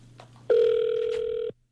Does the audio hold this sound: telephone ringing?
yes